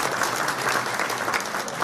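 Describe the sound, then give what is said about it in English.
Warm applause from a gathering honouring a community club's 35 years, with many hands clapping in a dense, steady wash at a moderate level throughout. “That's an incredible achievement, and I think it's worth a round of applause for 35 years of hard work to do just that.”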